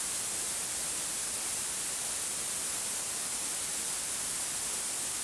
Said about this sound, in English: Now we have exaggerated the difference between the rendition with and without dithering, and it sounds like this.